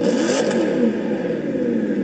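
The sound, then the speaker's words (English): A 2014 Corvette C7R race car engine revs in a loud, sustained roar. The dense droning tone holds steady for the whole stretch and nothing else is heard over it. “So, what are we driving today? That is what you're wondering. We have the 2014 Corvette C7R.”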